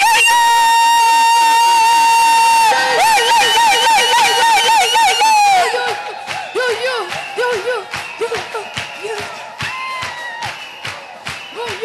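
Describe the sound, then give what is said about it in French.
An audience acclaims with ululation (you-you) at a thanksgiving praise service: loud, high trilling calls waver in pitch, then give way to steady rhythmic beats as further trills continue. “Nous allons acclamer avec des you-you.”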